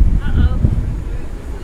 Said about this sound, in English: Well, this is the least windy place we could find. If we step out into the wind...